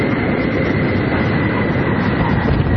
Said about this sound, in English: NASA finally decided to bring her down in Florida. Nose gear touchdown.